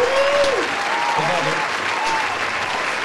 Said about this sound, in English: Let's give him a standing ovation here, boys.